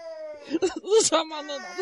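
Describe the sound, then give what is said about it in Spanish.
A young girl crying in a radio drama scene set in a detention and torture center: short whimpering sobs that rise and fall in pitch, broken into several bursts. “No llores, nena.”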